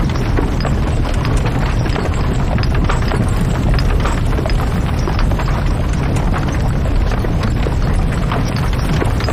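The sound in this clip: Hooves of a horse-drawn carriage clip-clop in many quick, steady beats over a loud, continuous low rumble, with no voices.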